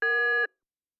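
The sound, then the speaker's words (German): Radio time signal tone on a German station: one steady, clear beep lasting about half a second, then silence. “Beim nächsten Ton ist es 23:07:12.”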